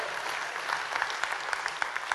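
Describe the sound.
An audience at a church gathering claps in dense, steady applause of moderate loudness, with many overlapping hand claps and no pauses.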